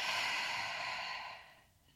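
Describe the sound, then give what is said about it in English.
A slow breath drawn in through the nose and let out, a soft airy rush that holds steady, then tapers away into quiet, heard alone. “One more time, breathe in through the nose and breathe out.”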